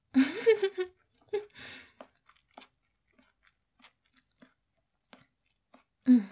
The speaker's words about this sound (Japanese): どうしよう。何口食べても美味しい。